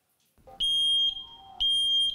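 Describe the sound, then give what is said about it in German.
Two long, shrill electronic beeps from a residential smoke alarm being tested during installation. Each steady, high-pitched tone sounds for about half a second, with a quieter gap between them and no voices. “Piepsen im Akkord. Funktioniert. Und Rauchmelder einbauen im Akkord.”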